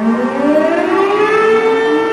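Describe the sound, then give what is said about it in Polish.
Air-raid sirens wail across Warsaw, a loud, steady mechanical howl whose pitch climbs slowly, with layered harmonics and no other sounds. “Wtedy w Warszawie zawyją syreny, a życie stolicy zatrzyma się na minutę.”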